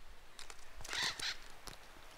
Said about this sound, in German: Eichelspechte sind eifrig damit beschäftigt, ihre Wintervorräte anzulegen.